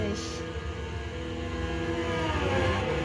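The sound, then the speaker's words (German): Engine whine of a racing car accelerating in a Formula 1 video game, a faint, steady hum with a low rumble underneath. “Gib jetzt Gas, die Reifen sollten schließlich ein bisschen warm werden.”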